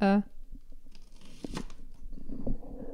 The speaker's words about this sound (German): Ich muss nämlich noch ein bisschen Zwiebeln schneiden.